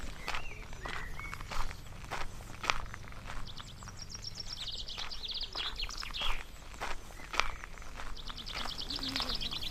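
Footsteps walk on outdoors in a rural farming area, a faint, steady series of soft steps accompanied by bright, chirping birdsong.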